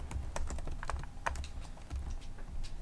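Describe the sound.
Keystrokes on a computer keyboard as notes are typed during a session of the tabletop game Microscope: a continuous run of many light, uneven clicks, with no voices.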